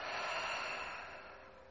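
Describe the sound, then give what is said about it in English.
A deep breath is exhaled through the mouth during a guided yoga breathing exercise: one soft, airy whoosh that slowly fades away. “Bring your hands together in Lotus or Padma Mudra at heart center. And take a deep breath in and out through your mouth.”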